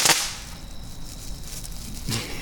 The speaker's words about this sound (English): I'm gonna light some more crackle bombs. I got two left. Gonna throw them down onto the patio. Right into the brush pile.